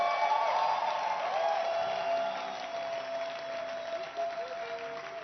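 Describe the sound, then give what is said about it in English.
Audience hand clapping in a church, a thick wash of applause that is fullest in the first couple of seconds, then thins and trails off, growing quieter toward the end. “Are you excited? I can't feel your excitement from the hand clap.”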